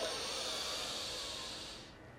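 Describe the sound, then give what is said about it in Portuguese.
A long inhale drawn through both nostrils during a breathing exercise, a soft, steady airy hiss that fades gently toward the end. “Inspira longo por ambas as narinas.”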